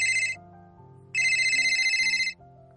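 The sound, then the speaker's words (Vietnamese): An incoming call on a phone at a restaurant table: a bright electronic ringtone sounds in two bursts, a short one and then a longer one, over steady lower tones. “Trong lúc ngồi ở quán ăn, đợi gọi món, Lâm Duyệt Phi nhận được điện thoại của Giang Tùng Bích.”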